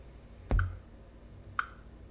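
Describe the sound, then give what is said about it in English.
Two faint, separate keystrokes click on a keyboard as a Gmail password is typed, with the first a bit fuller and the second sharp and short, spaced about a second apart. “I am still in the password field, so I will now type my password for Gmail.”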